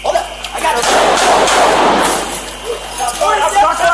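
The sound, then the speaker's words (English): Rifle gunfire from a police officer firing at an assailant in a department store comes as a dense, loud, sustained volley, with a voice heard toward the end. “One officer, wielding a rifle, fires shots at the assailant.”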